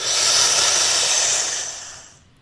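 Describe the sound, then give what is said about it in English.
A deep breath drawn in during a relaxation exercise, heard as a loud, steady airy hiss that holds for about two seconds before tailing off. “Now you're going to do that again. This time deeper. Breathe in.”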